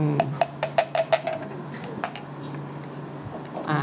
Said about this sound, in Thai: ส่วนที่4จะมีทวีน นะคะ แล้วก็กลิ่นนะคะนะส่วนที่4เนี่ยต้องเอา3ตัวนี้มาผสมรวมกันนะรวมกันหมดแล้วเนาะ